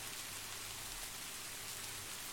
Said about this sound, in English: But anyhow, sitting in the pouring rain surely isn't good for your health.